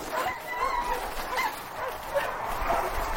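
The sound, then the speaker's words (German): Sled dogs bark and yip while pulling sleds on a polar expedition. A few short, high yips and whimpers sound over steady noise. “Die Hunde laufen prächtig.”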